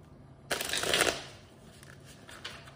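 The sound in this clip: Tarot cards being shuffled: a brisk, crisp riffle lasting under a second, followed by quieter papery handling of the deck.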